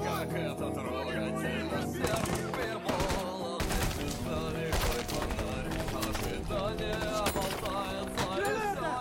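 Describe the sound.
Heavy gunfire from a film combat scene in which soldiers advance and a grenade is thrown: loud, dense, continuous bursts with other battle noise filling the whole clip.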